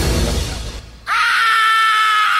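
A single loud scream bursts in after a brief quiet gap and holds a steady, piercing high pitch to the end, with no talk over it.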